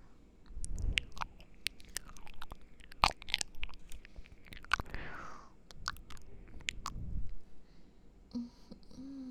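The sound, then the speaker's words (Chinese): Chewing of breakfast food: quiet, close crunching bites and wet mouth sounds come in a few irregular bursts, with soft clicks and breathy whisper-like noises between them. “尝尝我旁边给我做的早餐，好吃。张嘴，我来喂你。”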